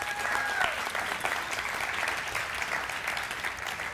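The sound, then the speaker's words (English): An audience applauds steadily for a pastor invited up front. Dense, continuous clapping holds at an even level throughout. “Pastor Brandon, please come join me up here. Give Pastor Brandon a big hand.”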